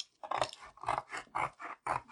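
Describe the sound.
Cutting through a big cardboard box makes a series of rhythmic, crunchy rasping strokes with short gaps between them, heard alone at a moderate level.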